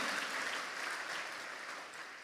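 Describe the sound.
Church audience clapping hands together in praise: dense, steady applause that holds at an even loudness throughout, with no clear breaks between claps.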